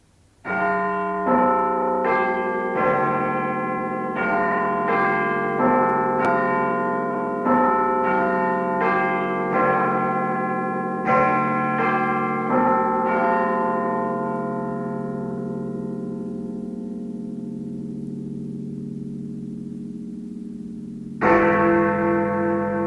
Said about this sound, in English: And now, the chimes of Westminster.